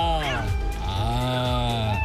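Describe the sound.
Cat meowing, a few drawn-out, wavering meows with clear harmonic tone, the pitch bending up and down, one following another across the short stretch.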